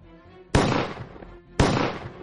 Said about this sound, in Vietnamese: Hai tiếng súng lần lượt vang lên.